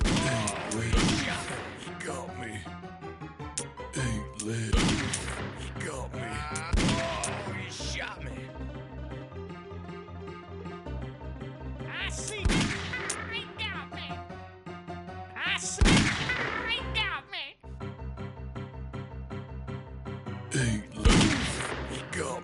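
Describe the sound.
Video game gunfire breaks out as several sharp, loud bursts at uneven intervals, set over a sustained tonal background.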